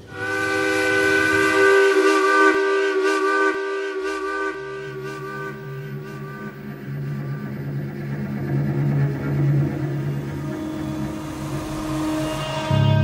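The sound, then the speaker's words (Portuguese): A steamship's whistle sounding at departure, in 1943: one long, loud, sustained pitched blast that holds steady throughout, with a lower rumbling tone joining partway through. “E esse som da partida do navio a vapor soava como um chamado para uma nova aventura nos campos.”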